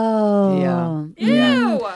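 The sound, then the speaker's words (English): A voice imitates the bored groan of a wealthy comedy-club audience: two drawn-out vocal moans, the first long and sinking, the second shorter with a rise and fall, loud and alone. “They just groan because they all own yachts.”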